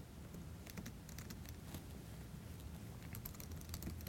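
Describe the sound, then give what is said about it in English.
Faint computer keyboard typing, with many quick keystrokes clattering in an uneven rhythm and no talking over them. “Okay, I typed the wrong key there, and that's okay.”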